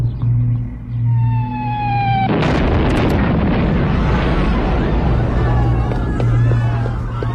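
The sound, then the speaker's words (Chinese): A bomb dropped by an enemy plane explodes at a hospital entrance. A sustained, slowly descending whine builds over a low hum, then a single loud blast gives way to a long, heavy rumbling roar. “报告，刚刚敌机在医院门口扔了一个炸弹。”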